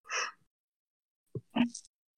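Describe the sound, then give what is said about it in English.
A quiet yawn: a breathy rush of air, a short pause, then a brief voiced, sighing exhale, heard alone. “Sorry, I had a yawn.”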